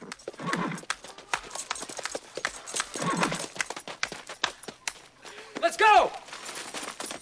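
Horses are led out, their hooves clip-clopping in many quick, uneven strikes, with a whinny rising near the end.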